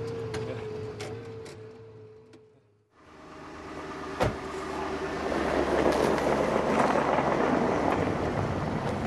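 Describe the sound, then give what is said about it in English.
Car driving along: a steady low road rumble that dips for a moment, then swells louder and rougher, with a single sharp knock partway through. “Right now, we're driving south.”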